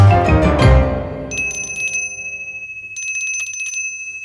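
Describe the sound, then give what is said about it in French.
A small hand bell rings in two short bursts of rapid, bright, high tinkling, after a fuller, lower tone that fades away at the start. “Maudite clochette.”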